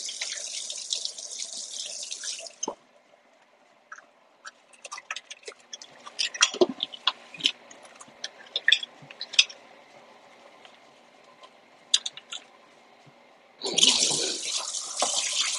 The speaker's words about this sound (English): Rinse my hands off here.